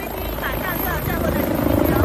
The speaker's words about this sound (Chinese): 一架救援直升机稳稳地落在新开诊的北大人民医院通州院区西南侧的停机坪上